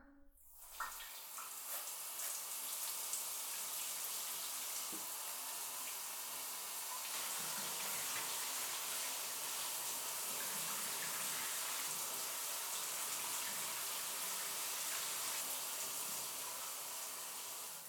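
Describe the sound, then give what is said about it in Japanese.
Water is poured or run to rinse someone off while washing. A steady, soft gush flows without a break from start to finish, with no talk. “そろそろ流すよ。”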